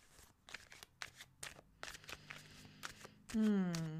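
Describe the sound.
Tarot cards are shuffled before a card is pulled, with several crisp, papery riffling bursts separated by short pauses, and a voice starts speaking at the end.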